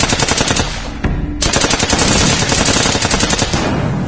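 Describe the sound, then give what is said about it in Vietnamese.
Loud, rapid bursts of gunfire in a Vietnamese radio drama depicting a surprise attack on a village. The shots crackle in a dense stream, pause briefly, then resume and continue to the end. “Một phát súng nổ, một mồi lửa ném tung lên,”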